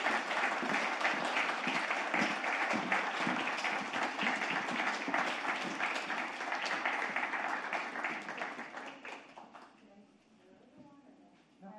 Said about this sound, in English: Please put your hands together and welcome Alejandra Campoverde and Jean Guerrero.